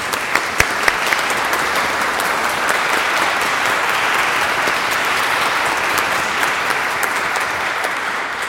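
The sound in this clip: A chapel audience at a Sunday service applauds to welcome guests, with steady, dense clapping that holds at an even, loud level throughout.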